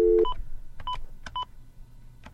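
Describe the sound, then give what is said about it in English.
Touch-tone dialing of a telephone number for the White House feedback line: several short, clear electronic tone beeps at uneven intervals, following a brief low steady tone at the very start. “Well, anyway, I'm going to dial a number.”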